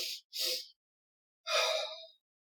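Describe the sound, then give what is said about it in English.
A person performs a physiological sigh: two quick nasal inhales in close succession, then one longer exhale. The breaths are soft and heard alone, without talk. “There's something called the physiological sigh, which is two breaths in through your nose and then a long exhale. So it looks like this.”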